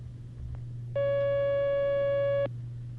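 A single steady electronic telephone line tone sounds for about a second and a half as a call comes in to a phone-in question session. It starts and stops cleanly over a low, constant hum.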